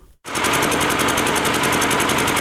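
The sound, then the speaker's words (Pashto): Loud old electricity generator running at Yaqubi bazaar in Sabari district, Khost, cutting in after a brief pause and then holding a steady, harsh rattling engine drone with a fast, even throb. “دا د صبریو ولسوالۍ اړوند یعقوبی بازار کې د برښنا یو پخوانی جنراتور دی چې د لوړ غږ، تیلو لوړ مصرف او تریخ لوګي”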